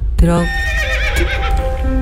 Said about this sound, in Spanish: ¿Cómo sonaba ese caballo? Ese caballo sonaba...